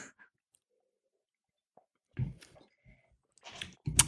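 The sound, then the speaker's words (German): Someone takes a sip of beer, with a few quiet, wet slurping and mouth noises in short bursts separated by near silence. “Da will ich nochmal, nehme ich mal einen Schluck.”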